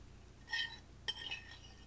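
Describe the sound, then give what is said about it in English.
A silver spoon clinks faintly against stoneware, two bright ringing taps, the second lingering a little longer, over a quiet low hum. “Spoon on stoneware. Yes, I use the silver spoon because the”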